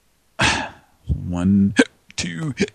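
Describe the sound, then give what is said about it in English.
Someone hiccups several times: short, throaty voiced catches and sharp gulping clicks come in quick, uneven bursts with brief silences between them. “So, what am I, hiccups now on the air?”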